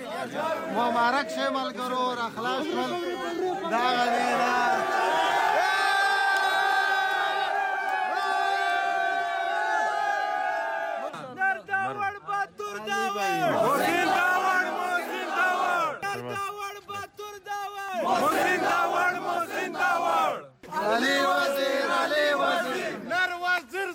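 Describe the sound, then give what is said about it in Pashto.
Hundreds of Pashtun Tahafuz Movement supporters chant loud, emotional welcome slogans outside Peshawar's Bacha Khan airport, rhythmic massed voices surging in repeated bursts with brief breaks between chants. “د اف آی ای له خوا د خوشی کولو وروسته د پېښور باچا خان هوایي ډګر نه بهر راجم شو. د پښتون تحفظ موومنټ په سلګونو پلویانو د دوی هرکلی په دې جذباتي غږونو سره وکړلو.”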